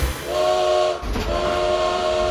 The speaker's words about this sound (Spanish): Nos subimos a un tren de lujo para hacer algo que en pocos países se puede hacer, visitarlo de punta a punta.